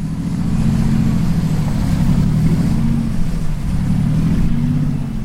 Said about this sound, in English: The yacht starts to turn around and motors away from the port.